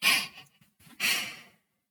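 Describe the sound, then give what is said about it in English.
A deep breath rendered as two long, airy rushes of breath about half a second apart, the first slightly louder, with no talk alongside. “Come on, just take a deep breath.”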